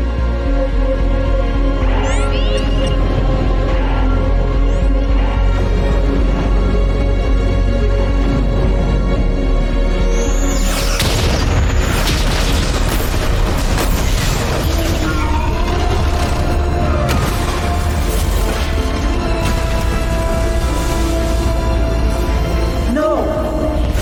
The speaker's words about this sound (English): Target the beacon. Fire torpedoes.